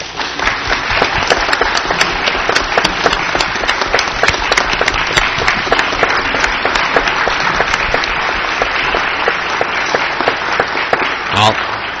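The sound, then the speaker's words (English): Standing ovation applause at a school board meeting: dense, crackling clapping from many hands that stays loud and steady for the whole stretch without pausing. “I will tell her that she got a standing ovation.”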